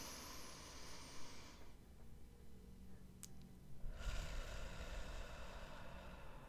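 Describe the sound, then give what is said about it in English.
Breath drawn in through a stuffy nose close to a microphone: a faint, airy rush of breath, then a quieter pause, then another long, hissy breath to the end. “You like listening to me breathe into a microphone?”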